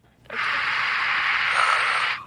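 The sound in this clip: One long, deep breath heard alone, a steady airy rush of air lasting about two seconds before it fades out.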